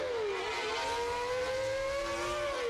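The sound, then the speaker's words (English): A 1989 Formula One car engine during Japanese Grand Prix qualifying, recreated from period driving data. It gives a continuous, loud, high-pitched whine that dips briefly, then climbs and holds at a screaming rev. “the 1989 Formula One Japanese Grand Prix qualifying. However, the sound you hear was not recorded. It was recreated in detail using Senna's driving data collected at the time.”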